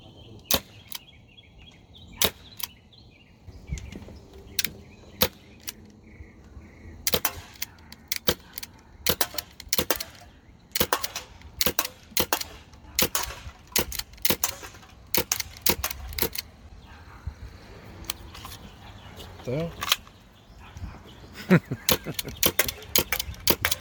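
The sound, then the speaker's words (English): Shots from an SSX 23 non-blowback gas pistol: many sharp, snapping cracks fired at irregular intervals, sometimes in quick clusters, over a low, quiet background. “we're gonna try out this SSX 23. Great pistol. All right, guys, so I got loaded up. I'm going to take a few shots and see how they fly.”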